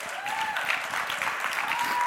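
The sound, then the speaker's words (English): Audience applause, a brief, thin round of steady clapping from a small share of the crowd, faint and even for about two seconds. “Oh, that was a 15% applause there, I think.”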